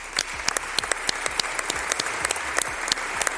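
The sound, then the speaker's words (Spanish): Long applause from La Rioja parliamentarians honouring a regional official who died suddenly, given after a minute of silence: steady, dense clapping with sharper individual claps poking through, continuous and without voices. “Con un minuto de silencio y un largo aplauso,”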